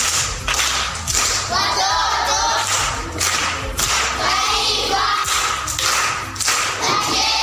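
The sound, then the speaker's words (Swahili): Applause for a primary schoolgirl who answered a question correctly: a dense, steady patter of many hands clapping that carries on for several seconds. “Amepata, amekosa? Amepata. Makofi kwa Dori.”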